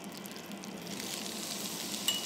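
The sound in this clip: Chopped rhubarb sizzling in a pan with melted butter, a steady, even frying hiss that holds at the same level throughout with no voices.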